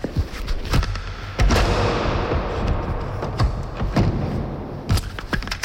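A medical machine that patients lie inside being closed: a few sharp knocks and thuds over a steady, dense rushing hum, with no talk.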